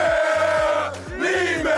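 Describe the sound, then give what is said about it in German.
Bundesliga football fans chanting and cheering together, a loud, continuous mass of voices over a steady pulsing low rhythm, dipping briefly midway before surging back. “Euphorisches Jubelwerk nach diesem Top-Fußballwochenende aus Werder-Sicht”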